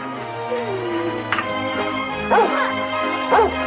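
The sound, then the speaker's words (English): A stray yellow dog gives a few short yips and whimpering whines, with two louder wavering cries near the end, over a steady background. “Looks like we've got us a dog.”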